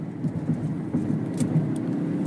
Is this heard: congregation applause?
no